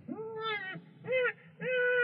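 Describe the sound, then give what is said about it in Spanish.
Newborn baby crying in three short, high, wavering wails separated by brief pauses, the last cry held longest. “¡Lo oyes! ¡Está llorando! ¡Es tu nuevo hijo!”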